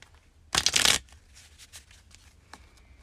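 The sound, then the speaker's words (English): Tarot cards being shuffled and pulled: a loud, dense riffle burst lasting about half a second, followed by a few soft slides and taps as cards are drawn. “Now let's pull some cards for this week ahead”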